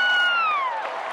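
A cheering whoop rises above crowd noise at a Reds–Cardinals baseball game near home plate, a sustained vocal cry gliding steadily downward in pitch before breaking up into the steady crowd background.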